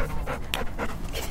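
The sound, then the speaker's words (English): A golden-furred, floppy-eared dog pants at an outdoor meet and greet in a jail parking lot. Quick, rhythmic breaths repeat many times at an even pace over steady background noise. “People gather around a woman and a dog doing some tricks.”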